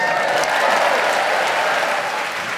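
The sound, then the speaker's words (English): A theatre audience at the Theatre Royal in Brighton applauds, a loud, dense, continuous wash of many hands clapping that holds steady and eases slightly toward the end. “And as you've just heard, we have in front of us a great cosmopolitan Brighton audience, all ready and eager to get the show going.”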